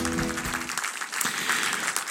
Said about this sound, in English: So please welcome to the platform this morning, Dr. Mark Moore, and let's give him a great North Valley welcome.